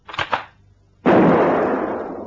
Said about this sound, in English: Look, I think I've got this rifle to work all right now. Watch this. That's your mother's laundry line.